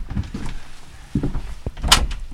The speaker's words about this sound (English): There's a little toilet, Elsan Portaloo, in this cupboard here. Let me show you.